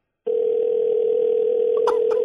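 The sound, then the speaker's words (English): A telephone dial tone sounds while a call is placed: one steady, unbroken mid-pitched hum starts abruptly and holds, with a couple of faint clicks near the end. “Calling Tab Patterson. Just find out what's going on. No, he's not answering his phone.”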